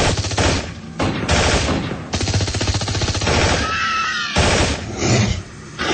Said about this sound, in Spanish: Las balas hacen estragos entre los cascarudos, pero los hombres robots se resguardan y disparan con violencia y puntería.